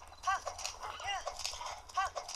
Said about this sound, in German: Komm, Pferdchen, schneller.